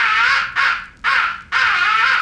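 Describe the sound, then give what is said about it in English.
A crow roost call: four long, harsh, drawn-out caws delivered loudly back to back with almost no pause between them, each one raspy and sustained. “The fifth and final essential call is the roost call. It is a deadly call. Use it when you're in your roost or near your roost in the late evening and crows are coming in.”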